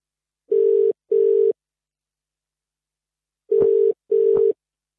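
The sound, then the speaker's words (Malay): Telephone ringing tone while placing a call: two pairs of steady, mid-pitched electronic beeps, each pair a quick double burst, separated by a long stretch of silence. “jom kita call”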